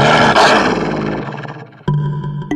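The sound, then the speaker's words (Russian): A wolf growls in a cave: a deep, rumbling growl that fades over nearly two seconds, then a second, shorter and harsher burst. “Во мраке пещеры волчьи глаза горели зеленым огнем. В горле клокотал яростный рык.”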